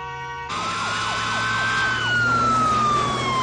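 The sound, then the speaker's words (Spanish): Sirens of a police car and a fire engine crossing a bridge cut in abruptly after half a second: a loud, rapid warbling wail runs alongside a long steady tone that slowly drops in pitch toward the end. “Un coche de policía y un camión de bomberos cruzan un puente.”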